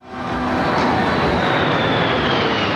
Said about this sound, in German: während die Kampfflugzeuge der Air Force im Tiefflug über die National Mall in den Sonnenuntergang donnern